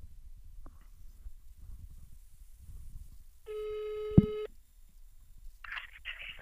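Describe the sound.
A telephone call tone plays as a single steady, buzzing note lasting about a second, with a dull thump near its end. Faint background noise comes before it, and a short brighter rustle follows.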